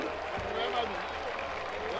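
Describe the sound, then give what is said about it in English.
Applause greeting Governor Seyi Makinde Adewoye Oko at a public welcome: a dense, steady clatter of many hands clapping, holding an even loudness throughout with a faint murmur of voices underneath. “Please, with a round of applause, let me welcome His Excellency, Governor Seyi Makinde Adewoye Oko.”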